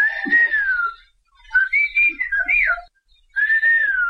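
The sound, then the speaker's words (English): A person talks in a whistled language, sending a few high, clear whistled phrases whose pitch glides and wavers like speech melody. Short silent gaps separate the phrases, and no voice or other sound is heard. “Whistled languages exist all around the world. They help people communicate over long distances, far longer than you could reach with words. A good whistler in the right conditions can talk to someone up to 3 miles away.”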